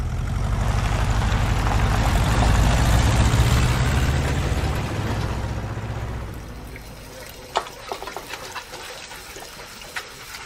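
A manual-transmission car engine idling during a driving lesson: a loud, low, steady rumble for about six seconds that then dies down into a quieter background broken by a few sharp clicks.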